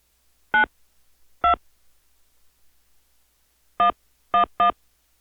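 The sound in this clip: Five telephone keypad tones enter a zip code into an automated wildlife and pest removal phone menu. Two short steady beeps come spaced apart, then after a pause three more follow in quick succession, with no talk.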